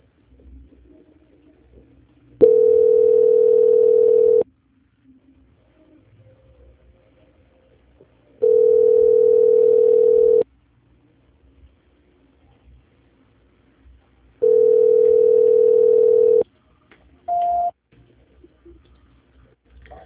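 A steady telephone line tone sounds during a call transfer: three long, even mid-pitched tones of about two seconds each, separated by roughly four-second gaps, then a short, higher beep.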